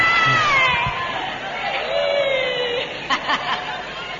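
A pet cat gives one long, drawn-out meow that slides downward in pitch and fades, followed by a few short, soft sounds.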